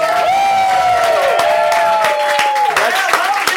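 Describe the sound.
Audience applause and cheering at a live comedy storytelling show: loud, sustained clapping with whoops and shouts layered over it throughout.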